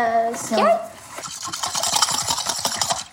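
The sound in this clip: Sugar being whisked into half a cup of warm water in a medium bowl: quick, rhythmic scraping strokes that run steadily for a few seconds after a brief voice at the start.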